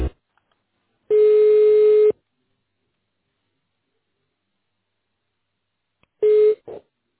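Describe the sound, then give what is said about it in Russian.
A telephone busy tone sounds as a call fails to connect: a steady, mid-pitched buzz of about a second, a long silence, then a shorter buzz followed by a brief blip. “Линия занята. Попробуйте перезвонить позже.”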